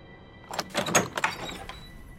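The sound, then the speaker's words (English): A house door bursting open: a quick cluster of clattering, rattling knocks lasting about a second, then fading into low, quiet noise. “The door to my house burst open.”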